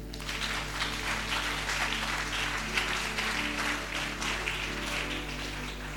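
An audience applauding at a Marian deliverance retreat in a sanctuary, with dense, even clapping throughout over a steady low hum.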